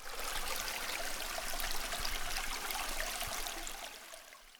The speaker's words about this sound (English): So after it's been filleted, yeah, he's kind of washing them down.